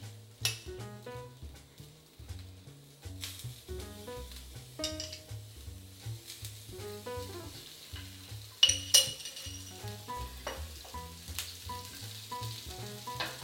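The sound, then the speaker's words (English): Sizzling from a gluten-free Asian tuna burger frying in oil in a pan, a steady crackle that runs through the whole clip with a few sharper bursts. “And I think I'm gonna add a little bit more oil so the other side cooks nicely.”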